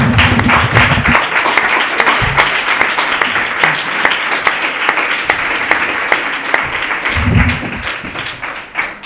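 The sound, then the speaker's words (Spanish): Applause for a guest at the close of an interview: loud, dense clapping from many hands that holds steady for about nine seconds and eases slightly at the end, with no voices over it. “un aplauso para Nassim”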